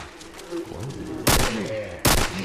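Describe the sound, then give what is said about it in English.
MP5 submachine gun firing in a video game: two loud, sharp bursts of gunfire about a second apart, separated by a quieter background with faint tonal chirps. “Now in MP5 you can either have the MP5 or the Uzi, that's what it's called. Let's hear what this thing sounds like.”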